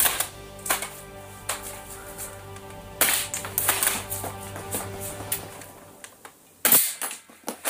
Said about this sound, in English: How did I know that's a headshot? Because the metal target for the head part is different from the rest. It has much more resonance to it.